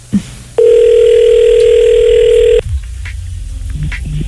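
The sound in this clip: Telephone ringback tone on a live outgoing phone call: one steady, mid-pitched tone lasting about two seconds, sounding alone with faint background noise before and after.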